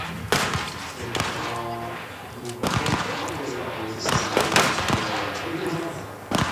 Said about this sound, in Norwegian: Vi ser jo at det er ganske mange som nå skyter stående på prøveskuddet.